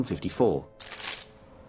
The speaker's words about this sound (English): With a look of dissatisfaction, he rubs out what he's done so far on the new picture. He glances around the office, then screws up his piece of paper into a ball.